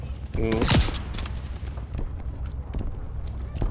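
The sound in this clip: Light machine gun fire rings out in a shooter video game. A loud burst comes early, followed by scattered sharp shots at uneven intervals.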